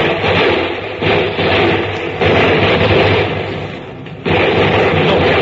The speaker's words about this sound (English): Sir? What's happened, sir? They stopped firing.